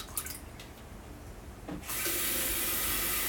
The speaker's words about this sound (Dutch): Een beetje kokend water bij.